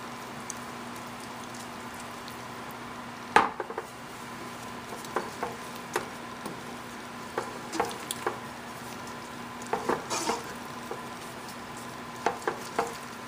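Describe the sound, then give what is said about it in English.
Stirring a delicate mixture with cinnamon and spices in a pot, heard as many faint, irregular soft scrapes and clicks over a low steady hum, with no talking. “You just want to be careful to when you stir this, because it is really, really delicate.”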